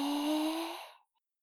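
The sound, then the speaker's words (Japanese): A deep inhalation during a relaxing massage: a breathy intake of air lasting about a second, carrying a faint steady voiced hum, then tapering off into silence. “はい。吸って”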